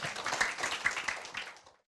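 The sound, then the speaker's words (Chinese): Faint audience applause welcomes a speaker at a talk on end-of-life spiritual care: many quick, scattered hand claps run together, then thin out and stop. “那我们也掌声欢迎他了哈。”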